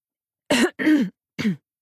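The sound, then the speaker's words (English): A man clears his throat in three short, rough bursts separated by brief pauses, with no other sound around them. “He clears his throat.”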